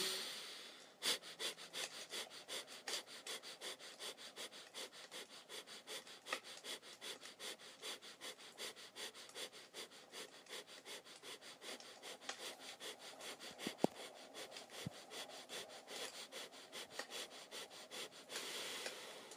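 Rapid, pulsing belly breaths in a pranayama exercise: many short, forceful exhalations in a quick, even rhythm, faint but steady throughout.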